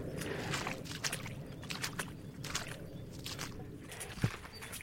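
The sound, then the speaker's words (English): Footsteps splash through shallow, barely moving water along the dried course near the source of the River Thames, a regular series of soft, faint sloshing steps heard alone. “I can see the source stone of the River Thames, and I'm still walking in water.”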